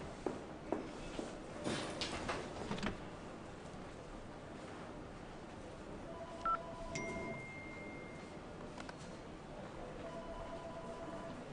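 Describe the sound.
A telephone number is dialed, with a few short electronic keypad tones over a steady background hiss. Soft clicks come earlier, before the tones.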